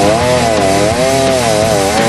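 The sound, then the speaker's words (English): A chainsaw cuts through a heavy log with a loud, continuous, buzzing whine whose pitch wavers up and down steadily throughout. “chainsaw is starting, he's cutting.”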